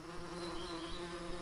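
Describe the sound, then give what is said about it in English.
A beehive inside a light switch gives off a continuous, even buzz, a low droning hum rich in overtones that holds steady for about a second and a half without a break. “The buzz in this light switch isn't from the electrical charge. It's the sound of an entire ecosystem, a beehive.”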